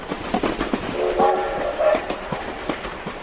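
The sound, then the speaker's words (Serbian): A train rolls along with a rhythmic clickety-clack of wheels on rails. A sustained horn tone sounds midway before the steady clatter carries on. “Voz.”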